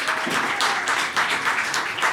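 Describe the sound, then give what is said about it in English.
An audience applauds to welcome two film stars onstage, a dense, even wash of clapping that stays steady throughout. “So please put your hands together and welcome Domhnall Gleeson and Will Poulter.”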